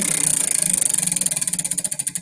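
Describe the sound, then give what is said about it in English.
A dusty prize spin wheel is spun, its pointer rattling off the pegs in a fast run of even clicks that gradually slow and spread apart. “Sorry, I'm realizing how dusty this spin wheel is because we haven't used it in so long. Here we go.”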